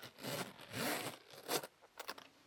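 A wallet is handled: quiet zipper pulls and scraping strokes are followed by short, crisp rustles of banknotes.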